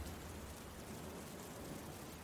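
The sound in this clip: Rain and running water make a faint, even hiss that stays constant, with no distinct drops, breaks or voices.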